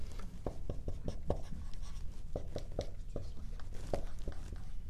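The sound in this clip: A map of Britain and Ireland is drawn on a board during a lesson, giving many quick taps and scratchy strokes in an irregular rhythm with brief pauses between bursts.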